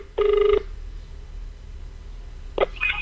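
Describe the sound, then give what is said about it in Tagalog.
Ringback tone of an outgoing telephone call: one short, steady, even-pitched tone burst, then a few faint brief sounds over low background noise. “Ina lang usa atong tawagan. Tawagan na to ni, taga-Ormoc man eh.”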